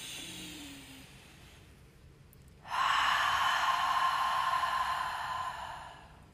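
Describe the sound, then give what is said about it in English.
A deep breath during a guided breathing exercise, in through the nose and out through the mouth: a soft intake, then a long, loud, breathy exhale that holds steady for about three seconds before fading. “So I'm going to fully inhale through my nose and I'm going to exhale through my mouth. And it's going to be deep.”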